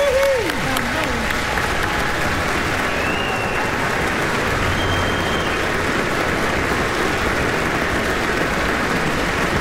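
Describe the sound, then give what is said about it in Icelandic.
Sustained applause from a concert audience for the Iceland Symphony Orchestra and its conductor. Dense, even clapping that holds steady and loud for the whole stretch, with no break. “Skulum gefa hljómsveitarstjóranum okkar og Sinfóníu hljómsveit Íslands sérstaklega gott klapp.”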